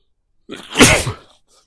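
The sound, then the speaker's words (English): A single loud, breathy sneeze bursting out sharply and trailing off, heard alone in otherwise quiet surroundings. “Okay, I've got the sneezes again.”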